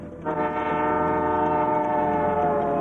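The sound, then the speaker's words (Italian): A train running from Moscow to Leningrad gives a loud, sustained, horn-like tonal drone that begins after a brief moment and holds steady to the end. “Mentre Gordievsky dorme sul treno che da Mosca porta a Leningrado”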